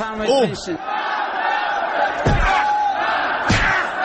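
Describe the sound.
A crowd in Iran's parliament chants the slogan "death to the seditionist" in unison, a loud, sustained roar of massed voices running through the whole stretch.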